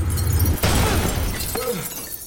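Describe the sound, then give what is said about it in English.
Glass windows shatter as two fighting bodies crash through them. A sudden loud, broad smash comes about half a second in, followed by a hissing spray of breaking debris that slowly fades. “He plunges both claws into his brother's body, and they smash through the windows.”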